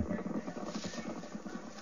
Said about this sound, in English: Now that's a horse race. A week later. Run, sea nettle. Run, run, run!